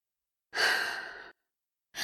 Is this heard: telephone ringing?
no